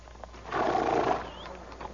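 A carriage horse on a hot, dusty village road gives one rough, breathy neigh or snort lasting about a second as it is reined to a halt, fairly quiet against a soft background.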